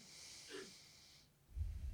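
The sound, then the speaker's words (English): A deep inhale during a guided breathing meditation, heard as an airy, steady hiss lasting a little over a second and then a low, muffled rumble. The breath is fairly faint, with no talk over it. “And let's inhale”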